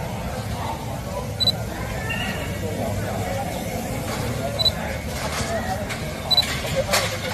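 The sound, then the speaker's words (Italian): Camera shutter clicks as a photographer captures a badly damaged, leaning red building after an earthquake: three short, sharp clicks spaced several seconds apart over a steady low background rumble. “Quello che sentite è lo scatto di una macchina fotografica che immortala uno dei palazzi più colpiti dal terremoto”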